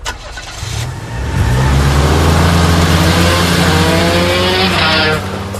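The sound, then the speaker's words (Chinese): Car engines on a busy city street at midday with traffic flowing steadily: a loud motor roar swells in after about a second, holds steady for several seconds, then drops away near the end, with no voices. “时近中午，这个街上的车辆虽不像这上下班高峰那么拥堵，却也前呼后拥，是川流不息。”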